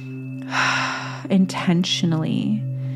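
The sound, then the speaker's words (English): A single deep cleansing breath during a breathwork exercise, drawn in through the nose and released through the mouth. A soft, breathy rush over a steady low humming tone is followed by talking. “intentionally in through the nose, intentionally out through the mouth”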